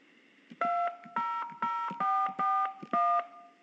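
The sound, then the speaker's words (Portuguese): Telephone keypad tones sound as a password is entered on an HSBC phone banking line: six distinct dual-pitched beeps in an uneven rhythm, each short and clear, separated by small clicks of the keys. “Digite a senha do meu HSBC telefone.”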